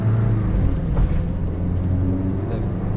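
A car being driven: a steady, low engine hum and road rumble that stays even throughout, with a slight surge partway through.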